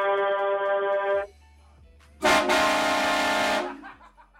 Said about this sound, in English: Here we'll give you a little trucker salute.